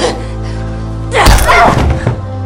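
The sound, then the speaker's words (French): A dull, heavy thump as a small dish is struck against someone's head during a fight. One solid impact is followed by a brief scuffling clatter over a sustained musical background. “attrape une coupelle et la frappe à la tête”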